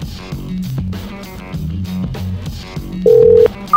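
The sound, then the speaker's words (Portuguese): Telephone call tone over steady background music: a sustained electronic tone near the end, then a shorter, higher beep. “Liga aí, o Pedro está pedindo para ligar.”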